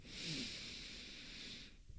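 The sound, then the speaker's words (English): A deep breath is drawn in during a guided breathing exercise, one long, soft, airy hiss that swells and holds for most of the moment, then fades. “Ready? Take a deep breath in.”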